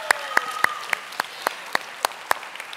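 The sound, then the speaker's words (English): Hand clapping from a church audience welcoming one another to worship on Mother's Day: sharp, evenly spaced claps in a steady rhythm, about nine clear ones, then a few fainter claps trailing off at the end. “So if you would, put your hands together, and let's welcome one another to worship here today.”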